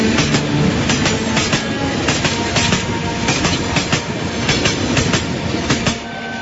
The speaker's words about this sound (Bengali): পাশ দিয়ে খুব শব্দ করে আরেকটা ট্রেন গেল। ট্রেনটা খুব জোরে ছুটে চলছে।